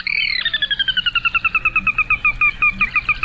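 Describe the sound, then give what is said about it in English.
A sora, a rail also called the Carolina rail, gives its whinny call: a rapid, even series of many clear, high notes that gradually falls in pitch, loud and alone. “Persona Carolina, the sora, today's Talkin' Birds featured feathered friend.”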